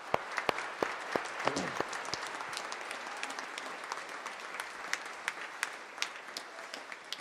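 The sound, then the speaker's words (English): Applause for the graduating class of 2017 at a Mass, a steady stream of many hands clapping with sharp individual claps standing out throughout, lasting about seven seconds. “Let's congratulate our graduates.”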